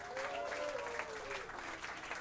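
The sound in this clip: Audience applause at a live jazz and DJ event: quiet, steady clapping from a crowd, with a held tone gliding downward under it in the first half.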